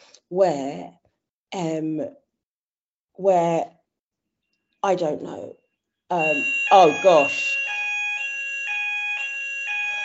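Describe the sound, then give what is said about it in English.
A hotel fire alarm: a loud, steady electronic alarm of high tones that switch pitch back and forth, starting after several short bursts of speech, with a voice talking over its start and then ringing alone. “is that your fire alarm? That is the hotel fire alarm.”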